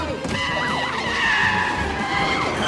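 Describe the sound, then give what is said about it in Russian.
Tyres skid as a police car brakes hard in front of someone at a city intersection, a loud continuous squealing screech with wavering tones and engine roar that runs through the whole clip. “Полицейская машина тормозит перед Хелен”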